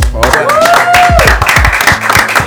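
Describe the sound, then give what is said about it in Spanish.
Loud applause with dense, steady clapping throughout, voices over it and a gliding tone that rises and then falls. “Un aplauso.”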